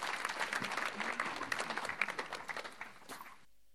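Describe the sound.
Audience applause welcoming a speaker at a church service, a dense, steady burst of clapping from many hands that tapers off and stops abruptly just before the end.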